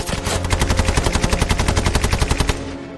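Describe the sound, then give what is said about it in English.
A Bren light machine gun fires from a window in one loud sustained burst of rapid, evenly spaced shots. The burst stops abruptly, leaving a short fading echo. “Lonsdale does not hesitate. The Bren gun opens up again from the window.”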